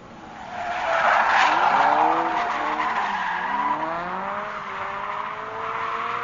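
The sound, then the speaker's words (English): Car tires squeal and skid as a black Impala and a red Dodge Charger race in a chase, a loud sustained screech with wavering, sliding pitch that holds for several seconds. “Outside the warehouse district, the sounds of squealing tires can be heard”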